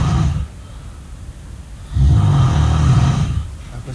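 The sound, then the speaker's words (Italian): Heavy snoring: low, rasping, rumbling breaths, one cut short at the very start and a longer, louder snore filling the second half, with a quiet pause between. “Questo non è il... non sono io che sto russando, vero?”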